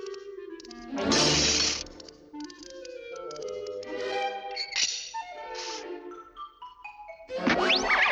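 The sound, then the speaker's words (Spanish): Glass being smashed in a cartoon: a bright, loud shattering crash early on, then ringing tonal sound effects, with another burst near the end. “rompo el cristal.”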